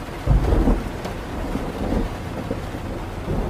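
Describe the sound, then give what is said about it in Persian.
Heavy rain pours down in a dense, steady hiss while deep thunder rumbles beneath it. No voices are heard. “بارون هنوز شدیده.”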